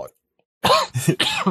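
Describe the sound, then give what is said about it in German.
Dry coughing: after a brief silence, a few harsh, rough bursts follow one another in quick succession. “Trockener Husten wieder.”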